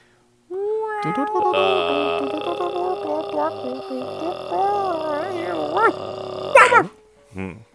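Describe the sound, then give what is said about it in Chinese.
People attempt Tuvan-style khoomei throat singing with their voices: a sustained buzzing drone with wavering, whistling overtones that rise and fall, then squeaky upward slides and a short final vocal burst. “嗯，这呼麦这种东西已经彻底玩坏了， 就是声音有声就 行”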